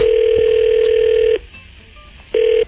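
While a call is being placed, a loud, steady telephone dial tone holds for over a second. It breaks off into quiet hiss, then returns briefly.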